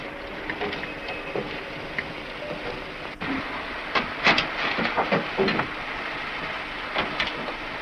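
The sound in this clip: The coal-fired steam locomotive La Lison hisses and rumbles steadily, with scattered metallic clanks and knocks breaking through the continuous noise.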